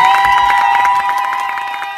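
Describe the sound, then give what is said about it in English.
A crowd at a live show cheers and applauds in a loud, sustained roar of voices, with a bright ringing tone running through it and tapering slightly toward the end. “A big round of applause for BJ.”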